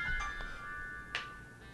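A mobile phone rings with an incoming call, a steady electronic tone held throughout, with a couple of brief brighter blips over it.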